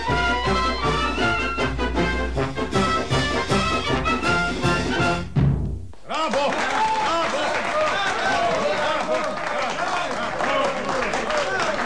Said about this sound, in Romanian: Furtuna de aplauze e pentru dumneavoastră, onorată și stimată doamne.